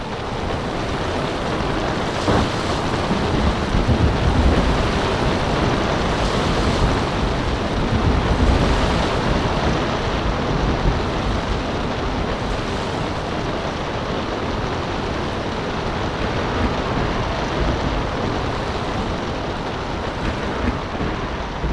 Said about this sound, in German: Es stürmt.